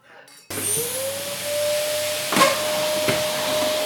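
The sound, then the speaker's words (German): A vacuum cleaner switches on for Saturday housecleaning after a quiet moment. Its loud, steady hissing roar carries a high whine that climbs briefly as the motor spins up, with a couple of short bumps as it runs and no talk. “Samstag ist der Wochentag, an dem gesaugt und geputzt wird”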